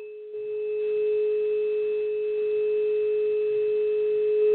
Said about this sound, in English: I'm also going to share this sound if you have availability of a tuning fork to 440 or 432. That is a sound of vibrational healing that can transform fear into love.